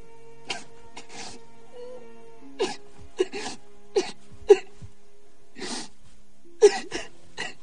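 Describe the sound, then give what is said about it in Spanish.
A man cries after hanging up a phone call with his mother: broken, gasping sobs and short whimpering cries come in uneven bursts, some sharp and louder, with quiet pauses between. “cuelga y comienza a llorar.”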